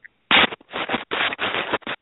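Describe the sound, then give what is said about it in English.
Choppy record cutting and scratching from a DJ-style intro played over a speakerphone call. It comes as a series of abrupt, thin-sounding bursts of scratchy noise with short gaps, then silence. “Look like you're doing some cutting and scratching like Jam Master Jay there. Nice intro.”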